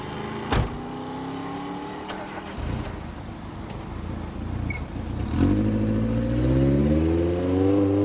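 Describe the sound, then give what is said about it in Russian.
A car engine pulls a convertible out onto a road while a Volkswagen follows it. The engine noise is steady at first, then builds with a rising, revving whine over the last few seconds. “Кабриолет выезжает на дорогу, мужчина садится в машину и едет за ним.”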